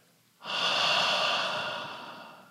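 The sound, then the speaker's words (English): One slow, deep breath is released during a breathing exercise, a soft airy exhale that swells quickly after a quiet start, then tapers off gradually, alone without talk. “And then release the breath. Again. Belly full. Release the breath.”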